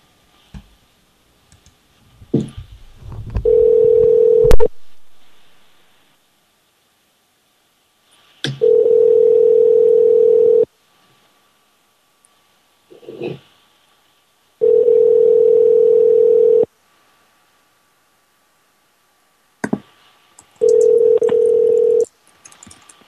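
Telephone tones while calling a number: a few clicks and short dialing sounds, then four evenly spaced bursts of a steady mid-pitched tone, each about two seconds long, separated by quiet gaps.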